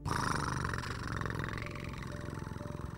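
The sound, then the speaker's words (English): A sleeping cat purrs at night, curled up beside a person in bed, producing a steady, rhythmic, low rumbling purr that stays fairly loud and even throughout with no other sounds. “that was the sound of his kitty Fluffy sleeping right next to him”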